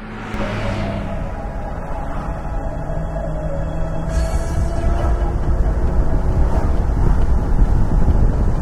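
A car cruising at 60 miles per hour in fourth gear: a continuous roar of road and wind noise over a low engine drone, building slightly louder toward the end, with no talk.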